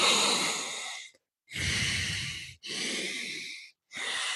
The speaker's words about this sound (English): So I'll inhale through my nostril. I close off that nostril. And I exhale out the other side.